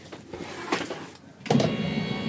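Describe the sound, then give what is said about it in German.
Motorized whirring of a TV lift sliding a television up out of a cabinet, beginning with a few soft knocks before a steady, moderately loud electric motor whine takes over. “Es kommt ein Fernseher aus dem Fenster gefahren.”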